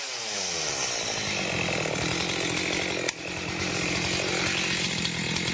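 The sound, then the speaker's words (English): A chainsaw running while cutting logs gives off a steady, loud, buzzing whine that continues without a break, apart from a brief dip midway. “Yeah, that's the sound of a chainsaw. Here, let's crank this thing up. Let's cut some logs with this thing.”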